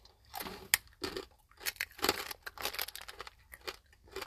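Chewing of candy-coated dry roasted peanuts: many sharp, irregular crunches and crackles, quiet overall, bursting in uneven clusters with short pauses between bites.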